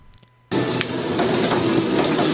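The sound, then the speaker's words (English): Turnip cake frying in a busy breakfast diner kitchen at rush hour: a loud, continuous sizzle that bursts in abruptly after a brief quiet moment and holds steady. “An egg is cracked, a turnip cake simmers furiously, and 100 other breakfasts need serving pronto at rush hour.”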